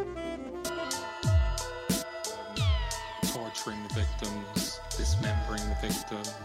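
A song played on the radio: layered, sustained harmonic tones with gliding, bending pitches and repeated deep swooping notes, continuous and moderately loud.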